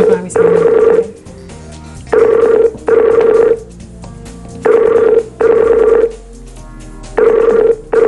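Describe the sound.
Ringback tone of an outgoing telephone call, a steady mid-pitched buzzing tone that repeats in loud bursts, mostly in pairs, with short silent gaps between them.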